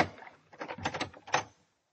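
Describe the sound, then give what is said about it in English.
A door is opened, heard as a short cluster of rattling latch clicks and knocks that rises to a sharper final clack and then stops, with quiet before and after. “Well, here we are. We'll open the door.”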